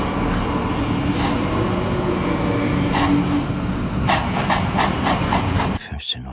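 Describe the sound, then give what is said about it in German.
A train at a station a minute before departure gives off a steady, dense rumble and hiss, with a few sharp metallic clanks near the end before the sound abruptly drops away. “Eine Minute vor Abfahrt des Zuges.”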